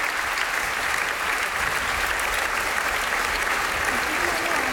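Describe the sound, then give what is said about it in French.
An audience gives an ovation at a Festival de Radio France concert at the Domaine d'O. Thick, continuous applause is heard with no breaks, steady and loud throughout. “Ovation pour Camille, ici au Domaine d'Eau.”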